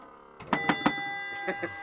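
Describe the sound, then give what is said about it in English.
A large 5-inch bell on a pinball table rings in three quick strikes, then two more after a pause, each hit leaving sustained metallic tones. “Love the bell. The bell's awesome.”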